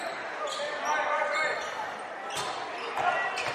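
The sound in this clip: A basketball is dribbled during a game: a few quick bounces on the court floor under crowd noise and commentary.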